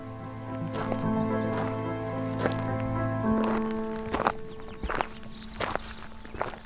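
Footsteps walk down a country lane toward an arts-and-crafts house. Several uneven, crisp steps come mostly in the second half, over a quieter steady tonal background.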